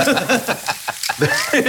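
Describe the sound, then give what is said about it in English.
Food sizzles and fries in a pan, a dense, steady crackling hiss with voices talking over it. “So, if you could see me, you'd know that right now we're cooking.”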